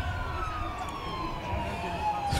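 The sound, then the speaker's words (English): The siren of a Dennis fire engine moving slowly in a procession sounds a loud, steady electronic wail that drifts gradually downward in pitch, sustained across the whole stretch over a low rumble. “Is it a Dennis? A Dennis? A Dennis fire engine.”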